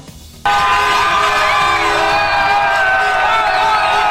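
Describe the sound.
Football fans cheering in Plaza de España, Mallorca, after a World Cup final win: a loud, dense roar of voices with sustained horn toots. It starts abruptly after a quiet opening.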